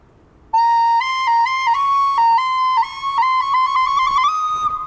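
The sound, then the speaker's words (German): A keyboard's recorder voice plays a quick melody of many pure, breathy whistle-like notes in a mid-high range, moving in small steps and ending a little higher than it began. “Und Blockflöte habe ich hier gerade gesehen. Da kann ich jetzt mal testen, ob das so klingt wie eine echte Blockflöte. So klingt die.”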